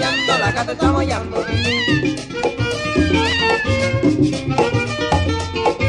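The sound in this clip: Meowing cries rise and fall over a dense, loud musical backing with a steady low pulse, in a song about a cat meowing.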